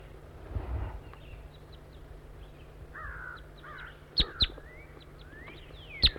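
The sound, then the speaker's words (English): Wild bird calls in short, faint bursts, with a few sharper, louder calls toward the end over a quiet background. “Calling to the wild bird.”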